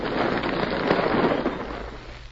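A rock-blasting explosion in a gold mine sounds as a loud, dense roar of rumbling debris. It holds steady, then fades over about two seconds.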